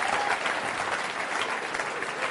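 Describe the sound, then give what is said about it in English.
Applause from an audience at a church gathering, a steady, dense clapping that holds at an even level throughout with no gaps. “Huge round of applause.”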